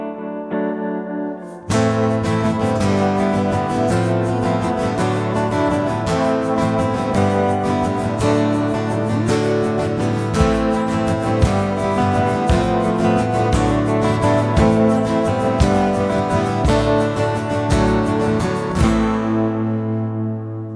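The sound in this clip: Original music written for a live evening of stories and songs inspired by the Tillamook Burn, a dense, effects-heavy piece with a steady rhythmic pulse that kicks in after a short quiet intro and ends on a sustained tail.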